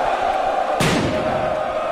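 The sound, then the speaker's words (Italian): Football fans in a stadium celebrate a league title win, their loud crowd din suddenly erupting into a roar partway through and staying loud to the end. “Sentiamo. La passione dei tifosi cresce col passare dei minuti, fragorosa,”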